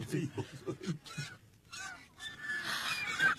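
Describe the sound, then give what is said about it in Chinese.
Swans call as they land on a palace roof, giving a few short honking calls over a low rumbling background. “皇上，看天鹅。 天鹅落到翠微宫宫顶上了。”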